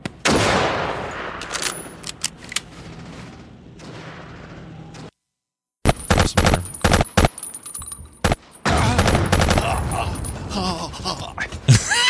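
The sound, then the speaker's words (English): Gunfire in video game gameplay with long-range shooting and soldiers running: many sharp shots in rapid bursts, a brief silence midway, then further volleys of loud, crackling shots. “All right, here comes just some gameplay. Some distance shooting. Guys just running.”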